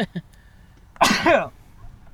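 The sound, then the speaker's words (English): A sneeze turns into a cough: one sudden, harsh burst of breath and throat noise, loud and about half a second long, standing alone after a few faint small sounds. “Shoot, I gotta sneeze. Turned into a cough.”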